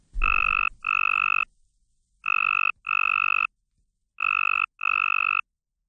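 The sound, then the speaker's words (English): Mating call of a male tree frog: six loud, buzzy, steady-pitched bursts arranged in three pairs, with silent pauses between each pair and nothing else audible. “Yeah, so if you're a female tree frog, you're very interested in choosing a male with a longer call,”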